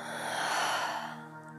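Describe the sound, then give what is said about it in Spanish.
One long, deep breath is exhaled through the mouth, a soft breathy rush that gradually fades over a quiet, steady musical drone. “En este momento, toma una profunda inhalación. exhala soltando por tu boca.”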